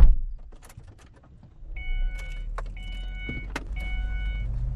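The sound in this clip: A car drives into the heart of the desert, heard as a steady low engine and road rumble, joined partway through by a few brief whirring, tonal sounds like a power window motor.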